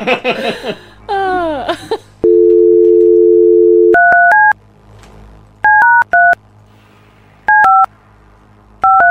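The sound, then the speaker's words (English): Touch-tone telephone dialing: after brief laughter and voices, a steady tone sounds, then loud paired beeps come in short irregular bursts of a few keypresses each, separated by pauses. “Such a weird rhythm to your dialing.”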